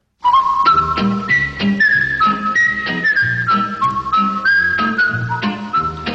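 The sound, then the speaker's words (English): A bright whistled melody carries the theme tune of a 1960s small-town television sitcom, gliding steadily over a loud, rhythmic accompaniment of bass and plucked beats, with no voices. “His Andy Griffith Show, huge in the 1960s, evoked a sweet, simple vision of small-town America. Its theme song, Gentle Times and the Fishing Hole.”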